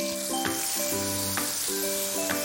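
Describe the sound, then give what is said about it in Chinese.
Tofu and water poured into a hot wok crackle in a loud, continuous sizzle that carries steadily from start to finish, with no talk. “翻炒均匀之后，把豆腐倒入锅中，加入水，”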